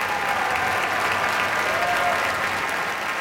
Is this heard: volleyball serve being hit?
no